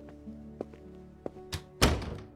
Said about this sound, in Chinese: 门朝里开了。